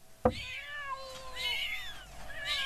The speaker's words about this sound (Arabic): الله يقطع القطط ما اكرههم، عم يشوشوا عليك، انا بورجيهم.